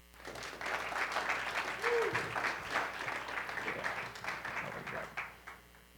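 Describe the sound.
Audience applause welcomes a speaker: dense, sustained clapping rises quickly and runs for several seconds before thinning out and fading near the end.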